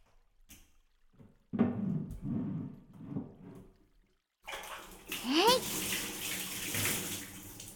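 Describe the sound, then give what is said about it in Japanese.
Hot spring water poured over a bather's body, splashing in a few uneven bursts, then a brief silence before a heavier, steadier rush of water. “まずは温泉のお湯を体に浴びさせてくださいね。”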